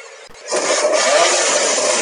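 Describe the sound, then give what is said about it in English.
A race car engine revving during fitting of new brake rotors before a race weekend: a loud, harsh roar that cuts in abruptly and holds steady, with a faint rising whine inside it. “don't rev it, mate.”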